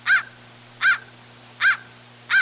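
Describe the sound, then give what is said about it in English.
An adult crow gives four harsh, raspy caws at an even, unhurried pace, each short and loud, with a faint steady low hum underneath. “Until a young crow's voice changes in the fall, it sounds like this. Ah, ah. Adults have a raspy caw.”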